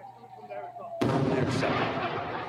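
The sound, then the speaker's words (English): Rockets fired from Gaza toward Israel burst into a sudden, loud, broad roar after a quieter stretch with voices, then keep rumbling steadily to the end. “Hamas continues to fire on Israel, with strikes happening as we went live on air earlier today. There's quite a few, and there's one going across the stream.”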